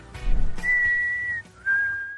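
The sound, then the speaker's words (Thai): A person whistling: clear, steady high notes, one long held tone and then a slightly lower held note after a short break, opening with a brief burst of noise. “can you not do that Whistling is a pet peeve of mine and I'm trying to read”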